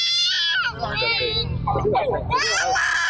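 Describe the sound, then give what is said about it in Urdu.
A young child cries in high-pitched wailing bursts, loudest at the start and near the end, mixed with talking. “یہ بچہ پتا کیوں رو رہا ہے؟”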